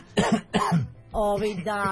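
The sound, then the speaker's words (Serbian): Two short, harsh coughs followed by a longer, voiced throat clearing. The sounds are loud and stand alone. “sad ću da se nakašljem, izvinite”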